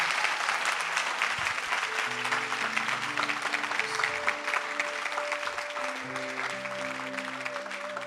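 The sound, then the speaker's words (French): A church audience applauds in acclamation of Jesus during a prayer service. The clapping is steady and fairly soft, and sustained musical tones join beneath it after about two seconds and continue to the end. “Oh, acclamez Jésus, le ciel est ouvert.”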